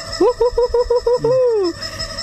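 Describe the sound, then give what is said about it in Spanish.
Chicken clucking, loud and harmonic: a quick run of short, evenly spaced clucks, then one long drawn-out call that slowly falls in pitch. “Eso, la alegría del pollo. Sí, se presenta el pollo en esta jornada porque, como sabe, ya es parte de la familia.”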